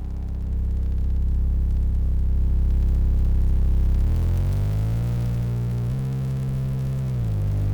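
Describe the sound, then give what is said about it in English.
Synthesizer module in oscillator mode imitating electricity at a music gear trade show, a loud buzzing electric drone that fades in, then shifts upward in pitch midway and keeps humming steadily. “The goal here was to produce a sound that is the sound of electricity, which is basically exactly what we're hearing.”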